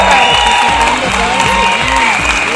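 A studio audience applauds during a radio show, dense clapping and some cheering heard over rhythmic background music.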